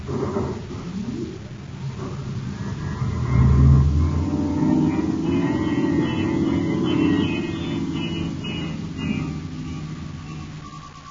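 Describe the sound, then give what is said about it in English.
A spaceship engine engaging star drive, a deep rumbling hum that swells to a peak early on, then holds as a steady drone with a thin higher whine layered on top. “I'm cutting into star drive.”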